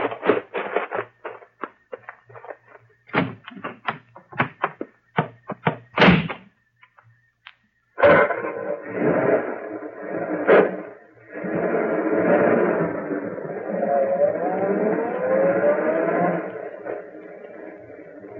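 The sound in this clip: Car driving away: a few sharp knocks and thuds, then a continuous engine-like rumble whose pitch shifts as it goes on.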